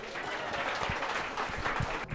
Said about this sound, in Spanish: Un aplauso, pues.